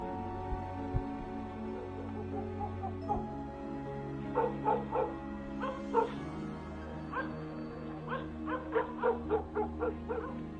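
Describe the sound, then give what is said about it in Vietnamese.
A yellow dog on a porch barks wildly at night: a long run of sharp, fairly loud barks mixed with yips and whimpers, building after a few quieter seconds and coming in quick bursts. “tiếng cuốc bổ vào cánh cửa cứ bồm bộp, làm cho con chó vàng đang nằm ở ngoài hiên cũng vùng dậy, sủa lên điên loạn.”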